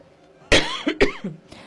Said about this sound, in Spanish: perdón por la tos.